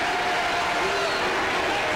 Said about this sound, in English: the crowd is showing their displeasure against this heckler, who finally leaves.